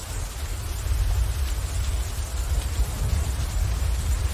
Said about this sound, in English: while rain pours down and soaks the forest foliage.